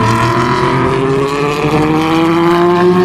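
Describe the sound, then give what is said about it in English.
Race cars roar past at the Porsche Curves, including an Aston Martin LMP2, a Ford GT and a Ferrari Italia: loud, continuous engine noise whose pitch climbs steadily as the cars accelerate. “Aston LMP2 and Ford GT, and a Ferrari Italia then, and this is another Aston.”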